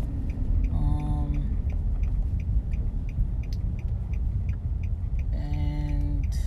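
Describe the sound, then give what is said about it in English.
A car driving out of a residential neighborhood, with a steady low engine and road rumble throughout and brief tonal chimes near the start and end. “driving, sorry I don't have the mic clipped, I'm just trying to drive out of my neighborhood and get to the gas station.”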